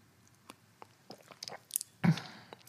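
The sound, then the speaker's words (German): Tea is sipped: soft wet mouth clicks and small slurps come at irregular intervals, then a louder, fuller burst near the end. The sounds are faint overall, with no talk. “ich muss mal eben währenddessen einen Schluck Tee trinken”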